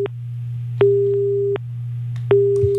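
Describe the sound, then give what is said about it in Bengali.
Telephone line tone on an incoming call: a steady mid-pitched tone switching on and off in a couple of long, even beeps over a constant low hum, with no voices. “হ্যাঁ, phone একটি এসে গিয়েছে, দেখব কে আছেন।”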